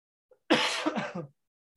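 A person clears their throat once to ease a tickle. A tiny click comes first, then a single rough, raspy burst under a second long, alone in near silence.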